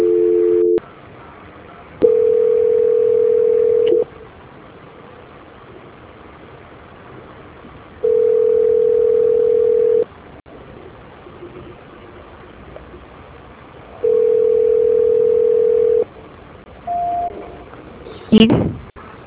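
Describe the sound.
Telephone line tones sound during a call transfer: a short tone at the start, then three long, steady, evenly spaced tones separated by quiet gaps of line hiss.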